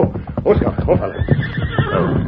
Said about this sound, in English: Now, this is just an ordinary saddle horse